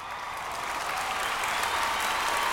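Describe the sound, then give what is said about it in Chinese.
Audience applause during a church sermon, modest rather than enthusiastic, forms a continuous, even wash of clapping with no individual claps standing out and no pauses. “我听到掌声不是很大”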